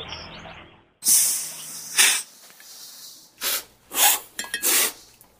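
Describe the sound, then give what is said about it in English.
Coffee is slurped from spoons during a cupping session at a coffee importer. A series of sharp, breathy hissing bursts sounds out, some short and some drawn out, separated by near-silence. “it's the sound of coffee educators at Café Ladro tasting and evaluating coffee at Atlas Coffee Importers. It's called cupping. The sound is a slurping noise you make when you take a spoonful of”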